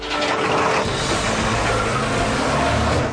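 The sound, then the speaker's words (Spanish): A jeep speeds away from a bazaar in an audio drama, its engine giving a loud, rough roar mixed with mechanical rattling that holds steady for a few seconds. “Joshua sube al jeep y se aleja apresuradamente del bazar.”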